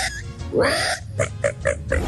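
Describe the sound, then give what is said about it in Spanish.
A voice imitates a pig squealing when grabbed by the ear, a loud rising squeal followed by a quick run of several short, grunting squeaks. “El puerco cuando está contento. Cuando lo cogen por la oreja y...”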